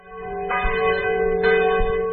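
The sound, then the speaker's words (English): Abbey church bells toll in the Champagne region of France, with two clear resonant strikes about a second apart over a humming, lingering ring that sustains throughout. “Bells toll at this abbey in the French region of Champagne, where Dom Pérignon is buried.”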